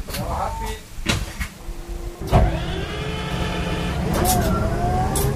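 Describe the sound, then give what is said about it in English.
Motor of a hydrogen fuel cell public bus in Iceland, revved with the throttle. A thump is followed by a steady, strained whine with tonal hum that climbs in pitch and holds over a continuous low engine rumble. “This is the sound of a hydrogen-powered fuel cell motor.”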